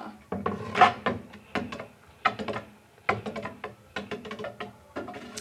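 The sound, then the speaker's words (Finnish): A ratchet spinner wheel on a game board whirs in rattling bursts of rapid wooden clicks, fading and restarting several times. “tässä on vähän tämmöinen niin kuin peli, eli tässä voi pyörittää tämmöistä hyrrää, ja siitä sitten saa jonkun vuosiluvun”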